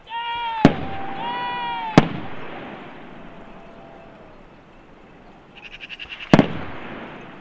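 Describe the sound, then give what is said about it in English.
Far-off gunshots from hunters pursuing a fleeing animal with dogs. Three sharp, isolated cracks are spread out over a steady outdoor hiss. “The shots that sound far away seem to indicate that he wasn't able to escape.”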